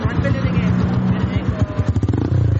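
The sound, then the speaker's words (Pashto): Motorcycle engines of touring riders in Charsadda, a low throbbing, pulsing idle that grows louder toward the end, with voices talking over the engine noise. “دا په چارسده کې موټر سایکل سوار سیلانیان دي.”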